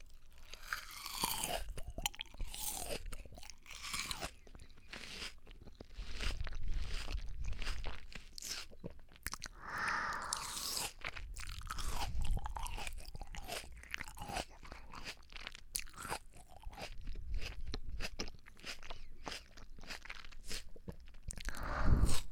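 Crunchy chewing of a small melon, with many moist, irregular bites and crunches at a quiet level, with no talking.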